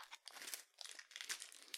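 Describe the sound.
Crunching bites of a thick Japanese crisp with a hole down the middle, a few dry, crackly bursts separated by short pauses, fairly faint and with no talking.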